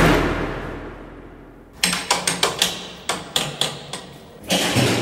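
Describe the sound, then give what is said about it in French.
Prison window bars ring under a metal sounding bar, struck in a quick series of sharp, clanging metallic hits with short ringing decays. A steady low rumble fades away before the strikes begin. “Alors ce qu'on entend là, c'est le sondage des barreaux. Pour voir s'il y a un barreau qui n'a pas été scié.”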